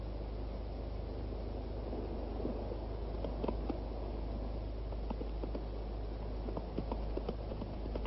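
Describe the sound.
Horse hooves clip-clop in a steady rhythm of light, regular knocks beneath a constant hiss of background noise.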